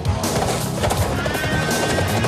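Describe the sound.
Horses neigh with shrill, strained cries over a dense clatter of hooves, loud and continuous through the short stretch.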